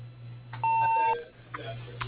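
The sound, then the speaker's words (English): A voicemail answering machine gives a single steady, fairly high beep lasting about half a second, over a low constant hum, followed by faint short sounds. “Sorry we missed your call, but if you leave a message after the tone, we will get back to you.”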